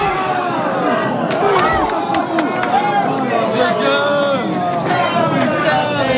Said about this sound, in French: Une Marseillaise reprise en chœur devant les trois écrans du bar avec un léger décalage de quelques secondes pour la télé en terrasse.